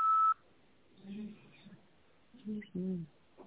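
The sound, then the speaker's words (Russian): A single short, steady electronic beep sounds alone at the start, marking the voicemail prompt after an unanswered phone call, and is followed by a few bursts of talk. “Вызываемый абонент, к сожалению, все еще не отвечает. Вы можете оставить для него голосовое сообщение после сигнала.”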